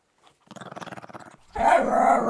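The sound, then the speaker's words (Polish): A dog growling, a low, rapidly pulsing rattle that holds for about a second before breaking into a louder, harsher snarl at the end. “No używają też dźwięków, tylko te dźwięki są znacznie prostsze i to nie jest odpowiednik naszych słów, bo to jest raczej warczenie,”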